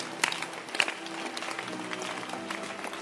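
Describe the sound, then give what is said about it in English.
Congregation clapping hands during a church sermon: steady, continuous clapping with a few sharper claps early on, over faint sustained tones, with no voices. “Keep clapping your hands. Keep clapping your hands.”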